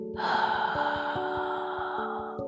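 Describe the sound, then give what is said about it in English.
A deep breath drawn in and let out, a long airy rush lasting about two seconds over a low sustained tone. “Let us close our eyes and take a deep breath in and a deep breath out.”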